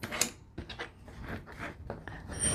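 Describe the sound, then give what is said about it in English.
Soft papery rubbing as a bone folder creases a paper fold, heard as a run of faint scraping strokes in quick succession. “Bone fold. It always gives you a nice crease when you use a bone folder.”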